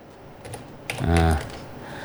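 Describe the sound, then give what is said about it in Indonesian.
Slow typing on a computer keyboard, a handful of soft key clicks while a song title is entered, joined midway by a short, low humming voice. “Inilah, harus awak ketik dulu ya. Ketik aja lah pelan-pelan.”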